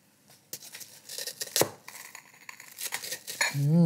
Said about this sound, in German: wenn ich das aufbreche mit meinem Löffelchen, die Lava-Erdbeersoße über den Teller